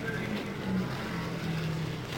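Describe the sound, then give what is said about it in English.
Race cars rolling past on a track during a race, a continuous, fairly faint engine roar with wavering tones and a steady level. “Still on the track, rolling by in front of us, Tony Bettenhausen in the no-buy, number 27.”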